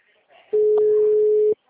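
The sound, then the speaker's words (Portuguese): A single telephone ringback tone while a call is placed, a steady, pure mid-pitched beep lasting about a second, with faint sound just before it. “Tá chamando. Deixe sua mensagem na caixa postal.”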